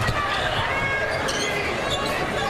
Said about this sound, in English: she'll dribble into the front court